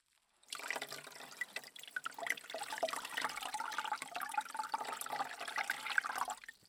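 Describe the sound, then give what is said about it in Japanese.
Warm water runs steadily for a rinse, making a continuous splashing hiss with small drips and spatters. It starts after a brief silence and stops just before the end. “お湯で流していきます。”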